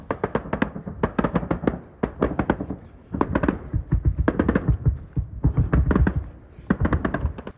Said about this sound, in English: Here in this trench, the soldiers keep a sharp eye on the open and thoroughly mined field that separates them from the Russian soldiers. Now and then, they shoot each other.